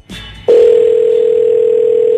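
A telephone dial tone sounds while a call waits to connect: a steady, loud, unbroken single tone, preceded by a brief, softer burst of sound.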